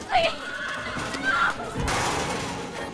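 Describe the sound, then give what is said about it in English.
A horse neighs, giving a couple of short, high whinnies in the first half, followed by a burst of rustling, scuffing noise. “Norbert, take your horse.”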